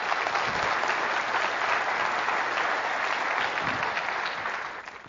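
Audience applause welcoming a poet to the stage: dense, continuous clapping from a crowd that holds steady for about five seconds before starting to fade.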